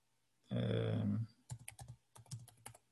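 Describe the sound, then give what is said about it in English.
Typing a password on a computer keyboard: a brief buzzy humming tone, then quick runs of light, crisp key clicks in irregular short bursts, fairly quiet. “Type my password and I'm logged in.”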